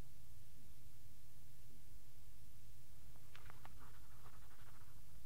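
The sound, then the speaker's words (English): A pen writes a letter: faint, scratchy strokes come in short bursts during the second half, over a steady low hum. “Writing. I'm writing a letter.”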